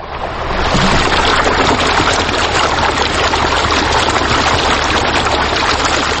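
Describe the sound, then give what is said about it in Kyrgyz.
The Naryn river roaring as it flows, a loud, steady, unbroken rush of water heard alone throughout. “Бул сүрдүү шаркырап агып жаткан Нарын суусу.”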